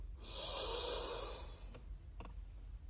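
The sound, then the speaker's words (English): Deep inhalation during meditation, a long, slow, breathy intake of air lasting about a second and a half, followed by two faint clicks. “Inhale deeply”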